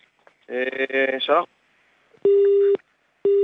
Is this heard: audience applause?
no